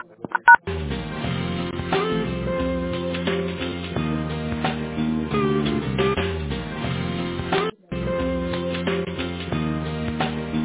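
Narrow-band, melodic telephone-line tones play continuously while a phone call is transferred to a manager, broken once by a short gap before resuming.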